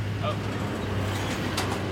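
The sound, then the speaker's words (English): A truck passes by, heard as a steady, broad rushing rumble that stays even throughout without clear peaks. “The sound of a truck passing us.”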